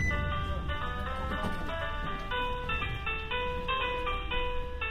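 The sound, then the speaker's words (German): A short chiming melody greets skiers as a gondola pulls into the mountain station, bright tonal notes stepping along over a steady low mechanical rumble. “Eine kleine Melodie begrüßt die Skifahrer.”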